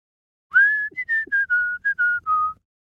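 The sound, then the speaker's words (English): A person whistles through pursed lips, about eight clear, bright notes of varying length in a short melodic phrase that drifts slightly lower in pitch toward the end, alone without any talk. “I'm making a noise by putting my lips together, making a small gap and blowing some air through the gap.”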